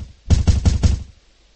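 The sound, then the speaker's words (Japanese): A door in a guesthouse is knocked on four times as a sound effect. The four knocks are loud, heavy and evenly spaced in a quick row, each with a deep thud, followed by quiet. “しばらくするとノックの音がした。”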